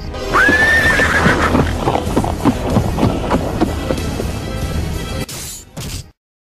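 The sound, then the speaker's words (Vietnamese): A horse gives one loud, high whinny, followed by many clopping hoofbeats in an uneven rhythm that gradually fade out. “Sơn Dương áp ngựa lại”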